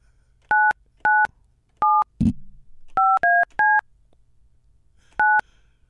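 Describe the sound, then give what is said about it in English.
Telephone dialing tones beep as a number is dialed: seven short, clear touch-tone beeps in an uneven rhythm, with a single low thump early on and quiet pauses between. “Let's see. I'll dial it up.”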